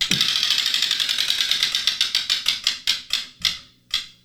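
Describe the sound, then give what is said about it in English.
A spinning prize wheel clicks rapidly against its pointer, and the clicks gradually slow and spread further apart until only a few widely spaced ticks remain as the wheel comes to rest. “that's why we spin the wheel, so you can just randomly give me a question”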